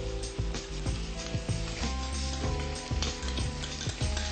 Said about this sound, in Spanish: Esperamos que la paila se caliente un poco para agregar los vegetales. Ahora agregamos un poquito de los vegetales.